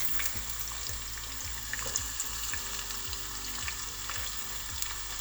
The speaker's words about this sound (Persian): یکم که طلایی شد و پیازش سبک شد، یه دونه سیر رو رنده میکنیم و بهش اضافه میکنیم.